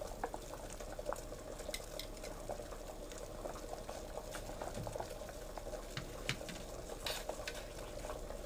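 Dense, steady bubbling of a simmering dish after salt and a little soy sauce have been added, with many soft pops and an occasional faint clink of stirring throughout.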